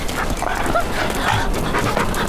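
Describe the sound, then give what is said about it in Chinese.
A dog pants fast and breathily in a steady, continuous rhythm at moderate loudness for the whole stretch. “这哪来的狗啊？”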